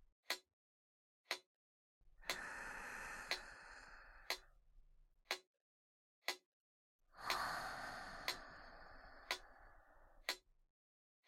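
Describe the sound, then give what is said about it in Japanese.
A metronome ticks crisply and evenly, about once per second, during a slow deep-breathing exercise. Two long, airy breaths swell and fade beneath the steady clicks. “メトロノームのリズムに意識を向けながらゆっくり吸って”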